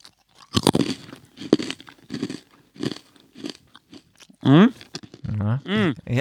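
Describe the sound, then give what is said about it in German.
Biting into crunchy food: a few crisp, dry crunches in a loose, uneven rhythm, followed by voiced vocal sounds from the person eating. “Okay, jetzt beiße ich mal rein,”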